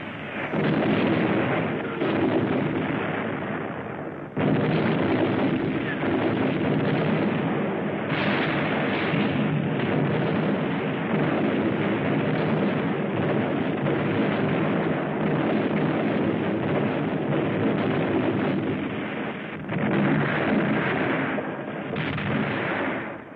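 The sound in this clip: Heavy explosions from a long-range German artillery bombardment of a city centre during the WWII Volga battle. The blasts merge into a loud, continuous rumbling roar with dense overlapping bursts and only a brief dip near the start.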